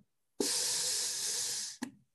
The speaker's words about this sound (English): So the Capnost Zero is a flavored air pressurizer. When you hit it, it hits like this.